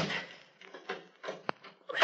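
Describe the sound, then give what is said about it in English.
An aircraft cabin door being shut and locked on a beach: a few soft knocks and clunks, a sharp snapping click midway, then a louder thud at the end. “Well, first climb up and close the cabin door and lock it.”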